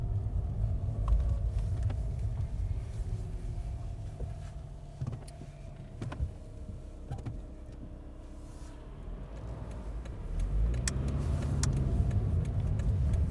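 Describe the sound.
A car drives along country lanes lined with hedgerows and wildflowers. Its engine gives a steady low rumble throughout with no talk, dipping slightly midway and then swelling louder toward the end.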